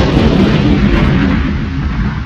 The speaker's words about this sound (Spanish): El reactor va a explotar. No puedo hacer nada. Estoy temblando. Menuda mierda, redios. Yo no debería morir así. Nave a punto de explotar.